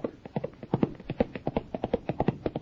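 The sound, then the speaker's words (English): Hoofbeats of a galloping horse ridden by a boy jockey come as many rapid, evenly spaced thuds in a steady driving rhythm. They are moderately loud, with no talk over them. “Golly, look at him go. Well, that's faster than he took off when Warren was riding him.”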